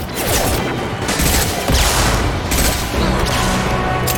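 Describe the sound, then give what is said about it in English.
Heavy gunfire in a video game: a dense, loud, sustained barrage of overlapping shots and blasts that runs through the whole clip without pause, with no talk. “Taking heavy fire.”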